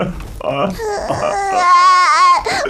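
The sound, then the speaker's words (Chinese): Elderly person crying loudly in sobbing, wailing bursts with a wavering, strained pitch that rises into a drawn-out high wail. “别哭，来来来。 老施主，你别哭了，”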